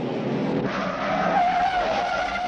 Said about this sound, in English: A San Francisco cop, played by actor Steve McQueen, speeds through the steep city streets in his 1968 green Mustang Fastback. Behind him, two mobsters in a black Dodge Charger chase him.